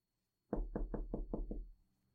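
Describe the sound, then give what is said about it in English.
Six evenly spaced knocks on the door of a family-run shop, firm and hollow, with a low hum underneath and silence before and after. “knock on the door.”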